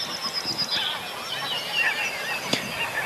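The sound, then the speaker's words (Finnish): Common crane calls over a field on a morning of birdsong: a few faint, honking, trumpet-like cries that rise and fade irregularly over a quiet outdoor background. “Kurkia lentää Joo. kaksi siitä oikealle ja äsken tässä tepastelikin kurki tuossa pellolla ja kurkia ollaan kuultu harvakseltaan vähän.”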